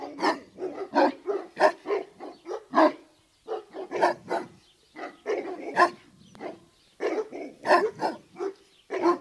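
A watchdog barks loudly, with many sharp barks coming in quick uneven bursts and brief gaps between them, and no voices heard.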